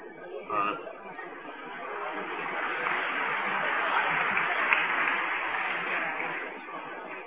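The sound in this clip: Applause from an audience greets a bouquet presentation on stage at a New Year gathering. It is a steady, broad clatter of clapping that swells after a brief start and holds for about seven seconds, with a murmur of voices mixed in.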